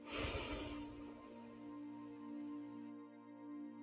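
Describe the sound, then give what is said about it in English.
A deep breath in and out through the nose during a guided meditation, a soft airy rush of breath over a steady sustained musical drone that continues after the breath fades. “Taking a big, deep breath through the nose and exhale from the nose again.”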